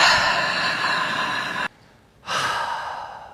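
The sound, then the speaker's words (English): A deep breath drawn during a guided breathing exercise: two long, airy, breathy rushes, each lasting over a second, separated by a short near-silent pause. No talk is heard. “Just take a really deep breath in and breathe in all that hope, all that love, and just breathe out all that fear.”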